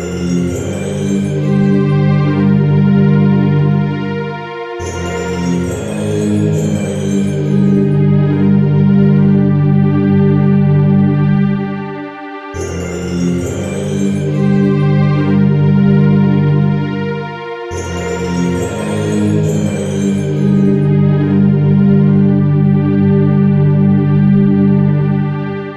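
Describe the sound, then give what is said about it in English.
Video game desert temple background music in a Middle Eastern modal style, with flatted seconds and parallel fifths, plays alone as sustained, layered tones with recurring phrases; a bright shimmering layer returns at several points over a steady, full-volume bed. “We progress through the Spirit Temple, which, by the way, has music that sounds like this.”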